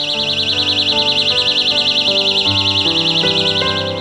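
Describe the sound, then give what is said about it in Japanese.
A personal security alarm buzzer wails continuously, a piercing high warbling tone that rises and falls rapidly and steadily. It stays loud throughout, with music playing underneath. “ブザーでいたずらをしている子どもたちにはおもちゃじゃないよとどうか注意をしてください。防犯ブザーは大人の皆さんのご協力があって初めて役に立つものなのです。”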